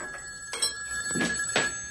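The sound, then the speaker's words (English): A telephone rings with a thin, steady, high electronic tone, overlaid by a few louder, brief pulses. It is fairly quiet throughout and no one speaks. “goes to answer the phone.”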